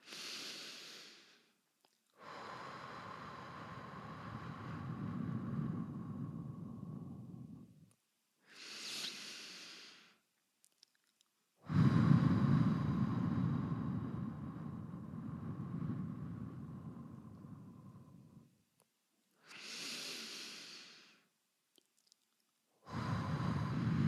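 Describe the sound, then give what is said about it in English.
Slow, deep breathing during a calming exercise. Each breath is a short, airy inhale followed by a long, drawn-out exhale, repeated a few times with quiet pauses between. “take in 3 deep breaths with me. Just breathe.”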